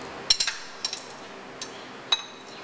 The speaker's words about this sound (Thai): แล้วก็จะใส่ตัวนี้ลงไปนะครับนะครับแล้วก็อะไรครับใส่นะครับตัวเต้าหู้แข็งเนี่ยลงไปนะครับ